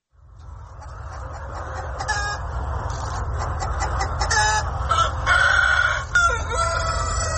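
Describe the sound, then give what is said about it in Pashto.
Rooster of the Vietnamese dragon chicken breed, a large, pricey bird with colourful reptile-like legs, crowing loudly with drawn-out calls and clucking, over a constant low rumbling background noise. “د ویتنام د چرګانو د ځنګړي نسل ته ډراګن چرګان هم ویل کیږي، ځکه چې دا چرګان د یو ډول خامار چې په انګریزي کې ورته ډراګن وای په شان رنگینه خپې لري.”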